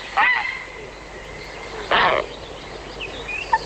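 Grey heron calling: two harsh, raspy croaks, short and rough-textured, separated by a pause of well over a second, with quieter background sound between them.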